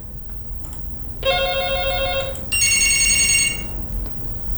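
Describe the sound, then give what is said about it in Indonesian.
A telephone rings for an incoming call with two bursts of bright electronic tones, the second burst higher-pitched, over a faint background hiss. “kita terima telepon dulu yang bergabung di WhatsApp ya, ada dari Ibu Farida”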